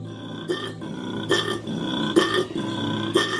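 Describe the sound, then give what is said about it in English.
Male koala bellowing for a mate: a deep, rough, snoring-and-belching drone that pulses rhythmically, with a few louder, harsher bursts, heard alone. “This is the sound of a male koala calling for a mate.”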